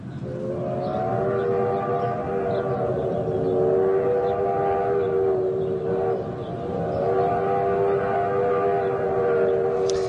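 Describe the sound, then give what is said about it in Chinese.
A passenger train on a journey: a loud, sustained harmonic whine with slightly wavering pitch rides over a continuous low rumble for the whole stretch, with no voices. “嗰年，黄飞鸿同佢嘅太太十三姨坐火车翻翻去佛山祭祖，故事就系由呢一班列车开始啦。”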